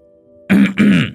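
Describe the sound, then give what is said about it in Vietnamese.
A man clears his throat in two rough, gravelly bursts, loud and close together, after a faint steady hum. “Ông Thìn đằng hắng mấy tiếng rồi nói:”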